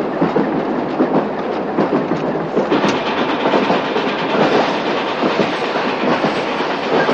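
A moving train pulled by a smoke-belching steam locomotive through a snowy riverside landscape: a continuous, steady rumble with dense rattling wheel clatter at an even loudness throughout.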